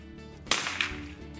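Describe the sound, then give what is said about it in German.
A single sharp, loud gunshot crack rings out at a shooting range during a marksmen's folk festival. A fainter second report follows shortly after, over low background noise. “Ja, heißt ja auch Freischießen, deswegen gehört das Schießen dazu.”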